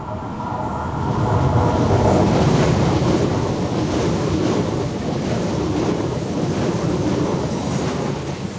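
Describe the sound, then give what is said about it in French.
A passing train rumbles and rattles with a clickety-clack beside a seaside path near the railway line at Roquebrune-Cap-Martin on the Côte d'Azur, a loud, continuous rushing wash that holds steady throughout. “Alors nous sommes sur la Côte d'Azur, on vient de marcher quelques minutes le long de la voie de chemin de fer depuis la gare de Roquebrune-Cap-Martin. Et là on se trouve en haut d'un petit chemin qui descend vers la mer.”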